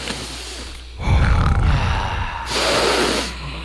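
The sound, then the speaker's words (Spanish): Deep breathing during a guided breathing exercise: two long, loud, airy breaths with a rushing, breathy texture, with no talk. “Respiremos. Son respiros. Respiremos con energía y con emoción.”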